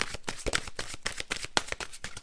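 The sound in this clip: Rapid shuffling of a deck of reading cards during a daily card draw: a quick run of many dry, papery riffles and flicks in an uneven rhythm, moderately loud and with no talking over it.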